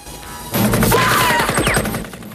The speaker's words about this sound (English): From the far side of the river, someone takes aim at Ko.